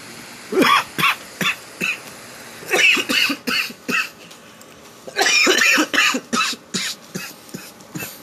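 A coughing fit: loud, harsh coughs in repeated bursts, some single and some in quick clusters, with no talking in between.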